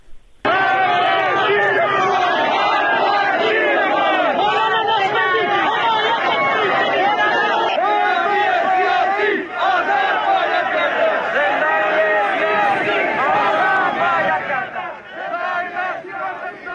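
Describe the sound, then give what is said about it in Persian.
Crowd chanting at a street protest in Zahedan, Iran: many voices shout slogans together in a loud, steady rhythmic chorus that carries almost unbroken for about sixteen seconds before tapering briefly at the end. “یک بار صدای اعتراضهای امروز رو از زاهدان بشنویم و بعد بریم به مراسم چهلم. صدا اگر الان آماده پخش هست رو بشنویم.”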